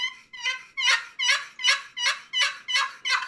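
A wooden turkey box call imitating a hen turkey: a steady series of about nine raspy, evenly spaced yelps, each rising sharply and then fading, with no talk.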